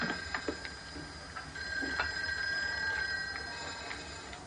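A telephone rings faintly in an office: a thin high ringing tone with a few soft repeated pulses, quiet against the background.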